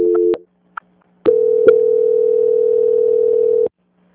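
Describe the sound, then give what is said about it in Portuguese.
A telephone transfer tone plays while a call is being put through: a short steady tone and a click, then one long, even, mid-pitched tone lasting a couple of seconds before it cuts off. “que eu vou transferir a ligação”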